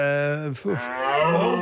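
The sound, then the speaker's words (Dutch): A deep bellowing call from a deer in rutting season: one long, low, harmonic-rich bellow, then a shorter rough grunting call. “Ik schrik er even van. Je hebt een hert meegenomen naar de studio.”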